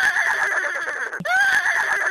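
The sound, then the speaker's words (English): A horse gives a long, loud whinny with a quavering, wavering pitch. A brief break in the middle is followed by a second strong surge of the call. “I have always felt this sound is one of the most beautiful and powerful sounds, and I'm sure anyone who listens to any horse feels the same.”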